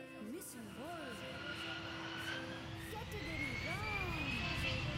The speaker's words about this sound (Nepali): बारी अल हरम Islamic school की है, आपके लिए जहाज तैयार है, सफर कीजिए।